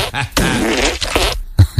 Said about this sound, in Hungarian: Viszont mi lesz ennek a mai hozománya, a lencse, tegnap esti lencsének? Brutális nagy fingorkának?